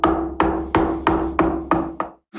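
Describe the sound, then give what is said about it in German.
Sharp, ringing taps of woodcarving tools in a woodcarver's workshop. Loud hits come in a steady rhythm of about two per second, each with a short, decaying ring, with no talk. “Viel Arbeit, das Schnitzen, aber eigentlich einer von den schönsten Berufe, aber man muss auch was tun dafür.”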